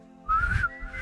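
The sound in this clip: A person whistles the melody of a rock ballad: one clear note slides slightly upward and holds, breaks off briefly, then a second note begins, loud and alone.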